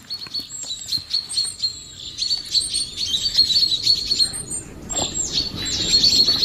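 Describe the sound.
Rapid, high-pitched bird chirps given as alarm calls warning of a predator, repeating almost continuously in loud, overlapping bursts over a rough background hiss.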